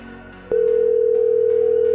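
A telephone dial tone follows a hung-up call. A steady single-pitch hum starts abruptly after a short, quieter stretch of low noise and holds loud and unchanging to the end.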